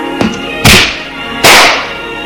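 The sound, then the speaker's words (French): A slap across a woman's face by her furious father: two loud, sharp cracking smacks with quick decays, preceded by a faint click. “Il la gifle.”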